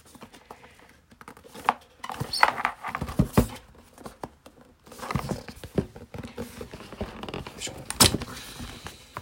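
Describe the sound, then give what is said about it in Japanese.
Cardboard packaging being handled as a box of Soundcore Life Q30 headphones is opened: loud, irregular scrapes, taps, knocks and rustles that come in uneven clusters with short pauses between them. “で箱を開けたいんですが。”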